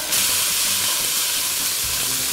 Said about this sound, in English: I've got some grass-fed beef here from Trader Joe's, and I'm gonna pop that into my frying pan.